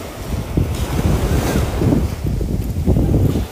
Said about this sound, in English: Sitting here by the ocean today